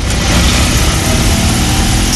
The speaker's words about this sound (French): Car pour lui, la magie de cette voiture, c'est le bruit de son moteur et aussi l'expérience de conduite. On va faire un petit tour.